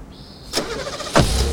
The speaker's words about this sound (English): Later, Michael drives away from the house in the BMW.